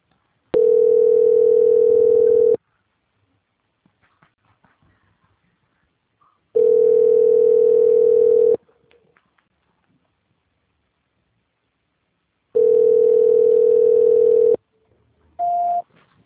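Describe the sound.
A telephone line tone plays while a call is being transferred: three long, steady hums of about two seconds each, separated by silent gaps of several seconds, then a short, slightly higher tone at the end.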